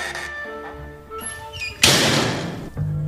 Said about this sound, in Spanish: Se abre la puerta del local.